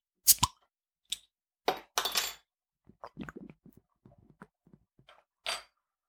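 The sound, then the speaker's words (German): A bottle of beer being opened: a few sharp clinks and a brief fizzy hiss, followed by quieter taps and handling clatter, with no talk. “Ich muss mal gerade ein Bier öffnen.”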